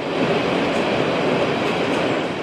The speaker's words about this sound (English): Trains pass below.